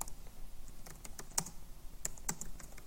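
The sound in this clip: Typing on a computer keyboard: many quick, irregular key clicks, faint and continuous, with no voices.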